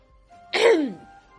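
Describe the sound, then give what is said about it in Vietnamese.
A single dry throat clearing, one short rough burst that slides downward in pitch, heard alone against near silence. “Tước Vĩ ho khan một tiếng”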